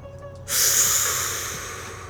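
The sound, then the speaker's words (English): A person breathing in deeply: one long, airy inhale that starts abruptly after a short quiet moment, then slowly fades over about a second and a half. “Feel this right quick. Breathe it in.”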